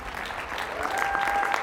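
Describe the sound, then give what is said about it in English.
Applause from a church audience, a dense steady clapping that swells slightly louder toward the end of the short burst. “Let's give Sister Anitra a good clap offering.”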